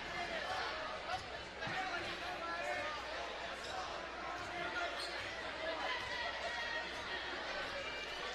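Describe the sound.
A basketball is dribbled during a game, with repeated thuds against the court under steady crowd chatter and movement throughout.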